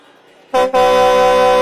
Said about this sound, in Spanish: ¡Pita una vez si estás listo para iniciar!